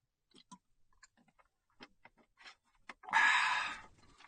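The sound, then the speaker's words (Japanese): Someone drinks water: soft, scattered sipping and swallowing clicks in near silence, then a louder breathy exhale that fades out. “ちょっと水飲みます。”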